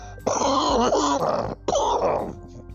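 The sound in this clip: A man coughs and clears his throat because of allergies: two rasping, groaning bursts, a long one followed by a shorter one, after a brief pause.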